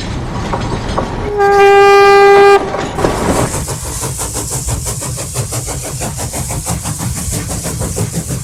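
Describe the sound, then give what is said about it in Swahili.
A train passes through a neighbourhood in Kenya: one long, loud horn blast sounds over the engine drone, then gives way to a steady rhythmic clatter of wagons rolling along the rails. “Gari moshi likikatiza mtaani nchini Kenya.”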